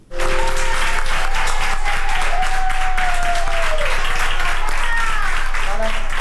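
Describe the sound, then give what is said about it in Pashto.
Doctors and nurses in Madrid applaud a woman over 100 who recovered from COVID-19, with loud, dense, steady clapping throughout and voices rising above it. “د اسپانیا په پلاسمینه مادرید کې ډاکټران او نرسان هغې مېرمنې ته چکچکې کوي چې تر سلو کلونو تیره ده او له کرونا رغېدلې ده.”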